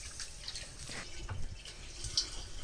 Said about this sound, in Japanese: 優しく洗ったら水気をしっかり切ります。